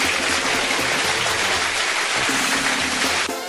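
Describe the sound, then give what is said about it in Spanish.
Dense applause at a birthday shout-out on a grupero music show forms a steady, hissing wash. A low musical tone sits underneath, and the sound drops off just before the end. “Ahí están los aplausos.”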